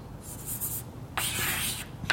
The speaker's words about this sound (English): Okay, so what I'm writing for you is differential operators, as I promised, for all the generators, the q bar, say, and the p.